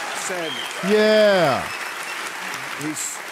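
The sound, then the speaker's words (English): Studio audience applause on Bill Maher's talk show, a steady hiss of crowd clapping running underneath a loud voiced exclamation that swells and fades in the middle. “But thunderous applause from the sheep in the audience. Unfucking believable. And this is Bill Maher's audience, man.”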